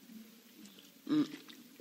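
A brief sip or gulp of a drink taken during a German sermon, one short soft swallowing sound in the middle of otherwise quiet low hum.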